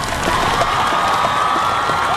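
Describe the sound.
A crowd applauding and cheering, a dense, steady wash of clapping with occasional whoops, loud and continuous throughout the short stretch.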